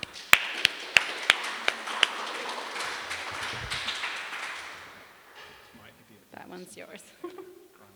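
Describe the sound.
Audience applause welcoming a guest speaker to an art talk in Brisbane: a few sharp early claps swell into dense clapping that fades out after about five seconds, then a man begins speaking.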